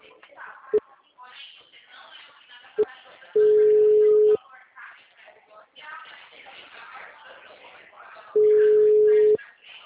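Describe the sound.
Telephone call tones sound while a call is placed, with two long, steady tones separated by a pause and two short beeps earlier, under ongoing talk.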